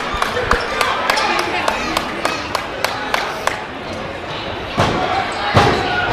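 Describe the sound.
A wrestling finisher, a slapjack slammed onto the mat by a tag team, lands as two heavy thuds after a long run of sharp, regular clicking hits, with crowd noise throughout.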